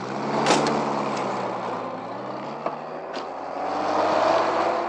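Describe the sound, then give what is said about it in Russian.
A car drives off as the driver shuts his door while moving. A steady engine drone carries throughout, broken by a few sharp thumps and clicks. “Водитель закрывает свою дверцу на ходу.”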